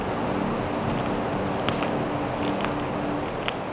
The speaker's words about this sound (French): bourrasque de vent et froid sec